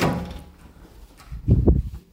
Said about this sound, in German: So, jetzt muss ich noch die eine Türe da aufmachen.